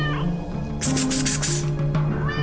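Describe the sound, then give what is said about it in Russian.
Loud, high-pitched meowing of a kitten hidden under the stairs at a building entrance, the cries running together over a low, steady hum. “вдруг услышала мяуканье котенка”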